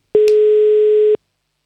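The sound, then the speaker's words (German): A telephone ring tone after a number is dialed: one steady, sustained mid-pitched beep about a second long, alone, with a brief click just after it begins. “Die Nummer wählen wir. Und dann hoffen wir, dass jemand abhebt.”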